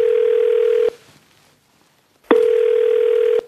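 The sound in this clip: A telephone ringback tone sounds while a call is placed: two long, steady, mid-pitched tones separated by a silent pause, loud and clear with nothing else over them.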